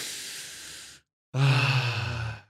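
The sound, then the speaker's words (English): A deep breath: a long, airy inhale, a short silence, then a louder sighing exhale with a slight voiced tone. “Let's take a deep breath.”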